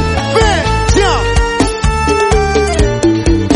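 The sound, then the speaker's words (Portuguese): A telephone rings for an incoming call with a loud, melodic electronic ringtone: repeating bright notes with short gliding phrases over a steady pulsing bass beat that runs throughout. “Eu posso ligar pra você também, não posso?”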